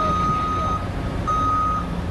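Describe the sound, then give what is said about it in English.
Truck reversing beeps ring out at a construction site where a new office tower is going up, two long, steady high-pitched beeps separated by a short gap over a constant low rumble. “That's the sound of a new NM office tower being put up on the north side of Wisconsin Avenue in Milwaukee.”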